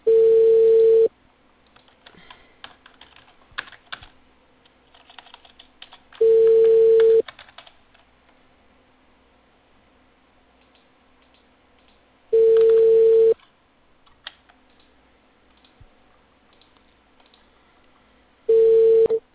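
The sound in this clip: The ringing tone of an outgoing telephone call: four steady, mid-pitched beeps, each about a second long, evenly spaced by roughly five seconds of near silence with faint low background noise.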